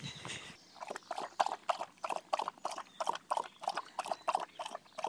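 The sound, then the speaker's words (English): A pet animal drinking: a quiet, steady run of many soft, wet lapping clicks at an even, rhythmic pace, with no talking. “So that's the sound of Golly having a drink”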